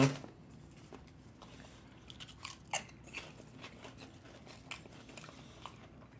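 Faint crunching and chewing of kalbi-flavoured Lay's potato chips, with a few sharp crisp bites among softer, scattered chewing sounds.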